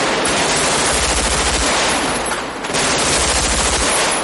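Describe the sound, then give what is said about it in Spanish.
Loud, rapid automatic gunfire rattles through the street shootout in the 1995 film Heat. Bursts hammer almost without a break, with one brief lull midway before the firing resumes. “Neil, Chris y Michael disparan el cordón policial. Neil rodea el todoterreno y dispara. Chris corre agachado y abre fuego.”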